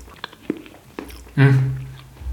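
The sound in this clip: Biting into and chewing carrot cake: a few soft, crunchy bites, followed by a sustained hummed murmur from the eater.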